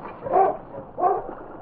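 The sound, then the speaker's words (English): Husky sled dogs bark out on the ice, giving two short, mid-pitched barks with a brief pause between them. “I'll never make it. On, King! On, you husky!”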